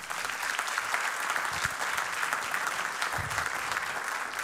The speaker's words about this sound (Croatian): Jedan veliki aplauz za Vojkana Jocića na tenor saksofonu.